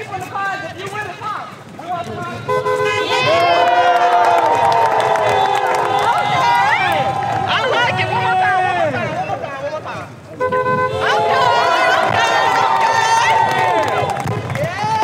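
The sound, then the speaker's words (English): Student protesters march across a university campus as a crowd of voices rises in loud, sustained chanting. It dips briefly partway through, then swells again. “The protesters then marched between the J. William Fulbright statue outside Old Main and the Fulbright Peace Fountain before gathering in the courtyard at Gearhart Hall.”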